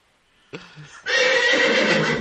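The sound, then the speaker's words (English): A horse gives a loud, long whinny that holds for over a second, after a brief soft bump and a short quiet gap. “Where's that horse going? Where is the horse going?”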